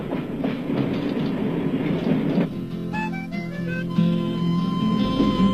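An international passenger train nearing Basel rolls along with a loud, steady rattling rumble and clickety-clack of wheels, then eases to a quieter, smoother rolling tone partway through. No voices are heard.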